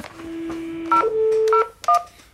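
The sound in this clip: Touch-tone keypad beeps as a telephone number is dialled over a steady low tone. The beeps are loud and short, a few of them at slightly different pitches, with no talk.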